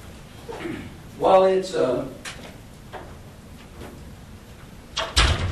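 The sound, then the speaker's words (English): A door being shut lands as one solid thud near the end, after a stretch of talking. “I'm going to shut this door.”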